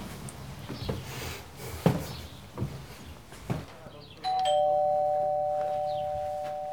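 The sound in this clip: A doorbell rings with a loud, sustained electronic tone that holds steadily to the end. Before it, a few soft, dull thumps sound over a low background hum.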